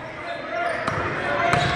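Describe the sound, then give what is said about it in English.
A couple of sharp basketball bounces from a behind-the-back dribble during a basketball game, brief thuds set against a constant din of crowd noise. “Behind the back dribble as he brings it ahead.”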